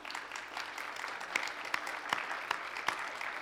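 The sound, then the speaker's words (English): Audience applause, a dense and steady run of many hand claps at moderate loudness, with a few sharper, louder claps standing out through the clatter. “And for Nikki's sake, that applause goes to you, right up to God, okay?”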